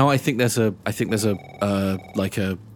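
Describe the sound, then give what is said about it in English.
A telephone rings out unanswered, its ring repeating in a run of tonal bursts mixed with a voice. “Mags, you ring Declan and it just rings out.”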